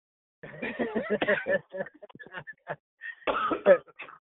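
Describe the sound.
A man's coughing from allergies comes in a few rough, throaty bursts, a cluster early on and a heavier fit near the end, with brief silent gaps between them.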